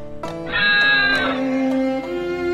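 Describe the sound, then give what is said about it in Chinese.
Sheep bleat at a high mountain pasture: a loud, wavering bleat followed by a lower, drawn-out call. “现在他们只需要去高山上的牧场，去路标石那儿。他的羊群在那儿早就等得不耐烦了。”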